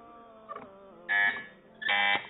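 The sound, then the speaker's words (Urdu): A quiz buzzer being tested: two loud, harsh electronic buzzes, each lasting about a third of a second, preceded by a fainter short blip. “چلیں جی buzzer check ہو چکی ہے”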